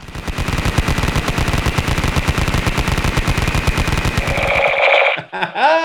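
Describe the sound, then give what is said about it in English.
A toy Star Wars phaser gun fires a loud stream of rapid electronic pulses with a steady, buzzing high tone. The burst runs for about four seconds before cutting off. “Star Wars phaser gun. With a toy gun, yes.”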